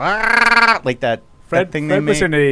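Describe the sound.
A person imitates a sheep bleating with a loud, wavering, nasal cry held for under a second, followed by shorter voiced bursts and further bleat-like sounds.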